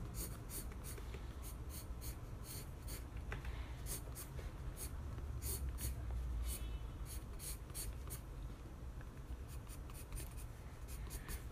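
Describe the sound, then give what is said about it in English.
Pencil sketching anatomy on paper: soft, scratchy strokes in quick irregular bursts, faint and nearly continuous, with crisp short scrapes recurring throughout. “so I'm still just drawing an anatomy right now.”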